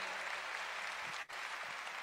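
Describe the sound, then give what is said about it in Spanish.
Faint audience applause at a church gathering honours married couples, some of them married fifty years. The clapping is a soft, steady wash with one brief gap in the middle, and no voices rise above it. “sigan adelante y pues denme un aplauso”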